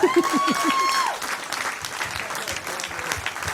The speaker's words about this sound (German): Ich erwarte an dieser Stelle einen Applaus vom Publikum.